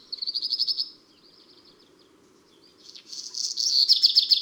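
Black redstart singing a regional dialect of its song: a high, scratchy, buzzing phrase, a pause of about two seconds, then a rough crackling phrase that ends in quick high notes, over a faint low hum.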